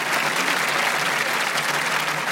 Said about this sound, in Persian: یه کف قشنگ بزنیم.